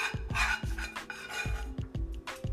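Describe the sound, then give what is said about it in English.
Repeated rasping scrapes as beans and garlic are stirred in a pan, a steady run of short strokes with clanks against the metal. “But first, let me mix this fucking beans and garlic.”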